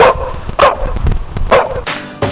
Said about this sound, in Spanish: ¿Qué le pasa al perro?